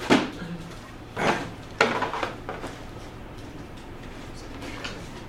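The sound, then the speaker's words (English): A cardboard board game box being opened, giving a few brief scraping, rubbing and knocking sounds of moderate loudness, with quieter handling noise between them and no talk. “I have not played this one. And I'm going to find out what it's about when I open the box.”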